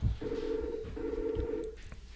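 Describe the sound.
A telephone rings for an incoming call with two long, buzzing, steady-pitched rings separated by a brief gap. The rings are faint.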